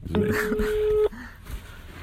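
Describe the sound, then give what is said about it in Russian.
A telephone tone sounds as a number is dialed: one clear, steady electronic beep held for about a second, then it cuts off, leaving faint background noise. “Позвоним еще одному слушателю подкаста «Звезда гор»”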